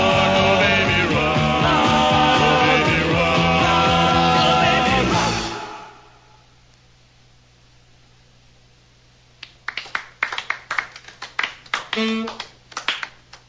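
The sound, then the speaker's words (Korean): Weak, scattered applause from a few people clapping unevenly after a rock and roll song fades out, followed by a brief quiet gap before the claps begin. “그런데 박수 소리가 영 시원치 않습니다.”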